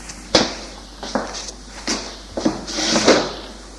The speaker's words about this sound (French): Puis, il va ouvrir une porte vitrée.